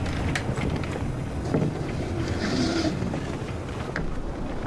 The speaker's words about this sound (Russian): Белый тримаран дрейфует по воде.